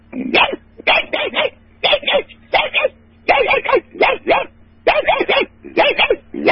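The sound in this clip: Puppy yelping in many short, high, strained yips that come in quick clusters separated by brief gaps, loud throughout over a low, steady hum.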